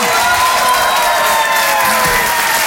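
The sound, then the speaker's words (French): Sustained applause and cheering from an evening audience in a hall, giving a warm ovation. The dense, even clapping stays loud from start to finish with no pauses. “Je vous demande de l'encourager très chaleureusement, de faire une ovation, s'il vous plaît, à Karine Dubernet.”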